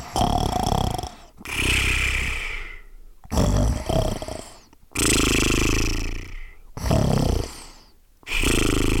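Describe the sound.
Snoring from a creature asleep on a top tree branch in the sun: a series of loud, rasping, drawn-out breaths separated by short pauses, with no talk.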